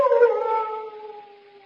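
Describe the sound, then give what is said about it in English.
A large dog's howl sounds as one drawn-out, tonal wail that holds a steady pitch, sinks slightly and slowly fades away. “What was that? Only the dogs, monsieur. They keep many dogs, large dogs at the Chateau d'Arzay.”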